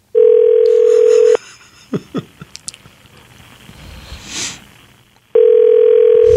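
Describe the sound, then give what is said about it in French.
Ringback tone of an outgoing telephone call: two long, steady, mid-pitched tones, one at the start and one at the end, with a quiet gap of about four seconds between them holding faint clicks and rustling. “Wow, j'appelle où, là? Ah, ben là, tu vas le savoir quand ça va répondre.”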